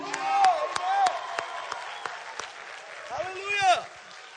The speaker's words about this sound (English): Clap your hands unto God and shout unto God with a voice of triumph. It would sound something like this.